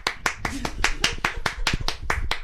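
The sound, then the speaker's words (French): Audience applause, hands clapping in a brisk, even rhythm of many sharp claps that runs steadily through the whole stretch. “Bravo, donnez un applaudissement.”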